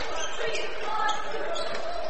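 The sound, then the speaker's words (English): Basketball being dribbled on a court during a game, the bounces faint and blurred beneath a steady wash of crowd noise. “He dribbles around the arc.”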